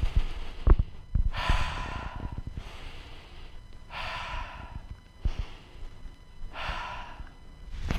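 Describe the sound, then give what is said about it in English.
Deep breaths taken with hands on the chest during a tapping exercise: a few slow, airy inhales and exhales in a steady, unhurried rhythm, soft and alone, with a few low taps near the start. “Put your hands on your chest. Deep breath.”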